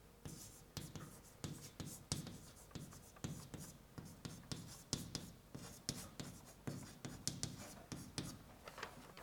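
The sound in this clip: Writing on paper or a board, heard as many quick scratchy pen strokes in an uneven, steady rhythm. The strokes stay quiet and are heard without any clear talk.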